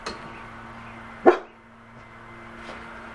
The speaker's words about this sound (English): Oh, the dog is here. Let me get rid of the dog.